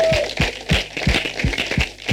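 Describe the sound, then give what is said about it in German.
Clapping from a church audience at a Sunday service, applauding the technical team: a steady rhythm of claps, with dull thumps roughly three times a second under a brighter, busy patter of hands. “Vielleicht können wir kurz mal dem ganzen Technik-Team einfach nochmal einen Applaus geben dafür, dass sie immer so früh da sind, jeden Sonntag, und die Sachen besorgen und sich um alle Dinge kümmern.”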